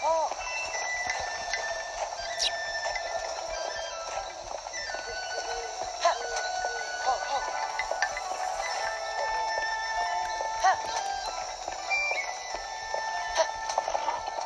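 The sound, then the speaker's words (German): Hoofbeats of horses being ridden, an ongoing clip-clop of scattered knocks over a bed of sustained tonal sound that lasts the whole stretch. “So, dann reiten wir jetzt nach Atheno.”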